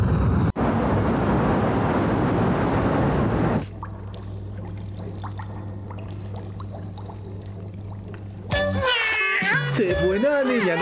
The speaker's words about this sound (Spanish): Te felicito por tu gata